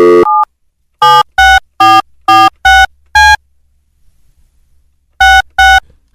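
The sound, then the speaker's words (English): Telephone keypad tones as a phone dials out: a short tone opens, then six loud, quick beeps, a pause, and two more beeps. “Hang on, I have to remember how to dial out from here.”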